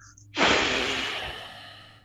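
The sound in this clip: Someone takes one forceful breath as a demonstration in a breathing exercise: a sudden loud rush of air that slowly fades over about two seconds.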